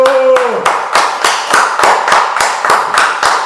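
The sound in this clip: A group claps in a steady, rhythmic beat, with sharp, regular strikes that stay even and fairly loud throughout.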